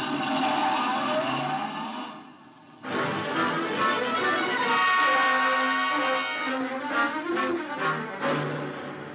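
A car engine revving as the car pulls away, a mid-pitched rumble that dips briefly, then rises and holds steadily for several seconds.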